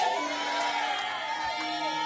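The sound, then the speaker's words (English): An audience shouts amen together during a church service, a dense roar of many voices that stays loud and steady for about two seconds. “Now, this amen you just shouted will not bring the wall of Jericho down.”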